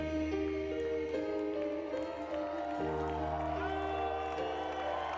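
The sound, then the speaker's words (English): A live audience cheers and claps in a steady, dense roar that stays loud and even throughout, with no break. “Just listen to the audience. This is so great.”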